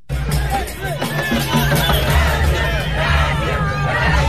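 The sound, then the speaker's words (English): Crowd of Brazilian football fans warming up in Times Square before a World Cup match: a dense, steady roar of overlapping chatter and shouts with no lull, loud and continuous throughout. “That's the sound of Brazilian football fans. They're warming up in Times Square for tonight's World Cup match.”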